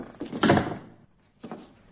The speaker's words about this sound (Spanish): Cierra la puerta en la cara de Farnum.